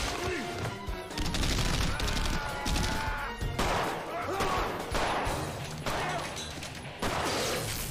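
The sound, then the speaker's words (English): Gunfire aimed at marijuana plants in a film scene, a dense barrage of sharp shots in rapid bursts over loud, continuous noise, with voices mixed into the din. “Why are you shooting the weed? That's perfectly good weed that you're shooting.”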